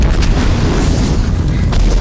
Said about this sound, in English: As the explosion tosses the closest militant vehicle